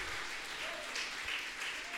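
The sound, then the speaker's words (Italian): An audience applauds during a church worship service, giving the name of Jesus praise with steady, dense clapping that holds an even level from start to end. “Date lode e applaudite il nome di Gesù.”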